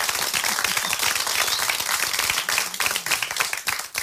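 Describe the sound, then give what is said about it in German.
Audience applause at the 2009 HörMöwe radio award ceremony, a loud, dense burst of clapping that carries on steadily and then thins with a few dips toward the end. “Ein extra Applaus für Sprout.”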